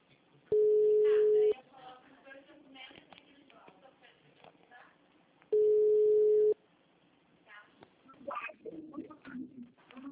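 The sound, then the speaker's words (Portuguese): A ringback tone sounds during a telephone call: two steady, single-pitched beeps, each about a second long and roughly four seconds apart, with faint voices and background noise between them. “Agora tá chamando.”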